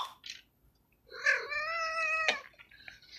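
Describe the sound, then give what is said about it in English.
A domestic cat gives a short call, then a long, drawn-out, wavering yowl with a strong harmonic tone that ends abruptly, alone without talk. “And that's our cat.”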